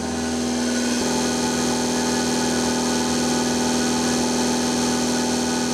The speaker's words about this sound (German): Das ist die Vakuumpumpe von der Melkmaschine.